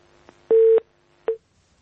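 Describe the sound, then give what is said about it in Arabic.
Telephone call connecting tones: a faint click, a loud steady electronic tone of about a third of a second, then a brief second tone after a pause. “معي اتصال.”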